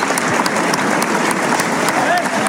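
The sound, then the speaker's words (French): Bullring crowd giving an ovation to matador Enrique Ponce, with dense, sustained clapping marked by sharp individual claps, steady and loud from start to end. “Une belle ovation. Belle ovation pour très, Ponce. Très belle ovation. C'était son arène.”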